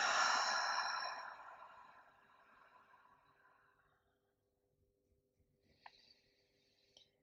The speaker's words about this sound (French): Encore une fois, inspire. expire.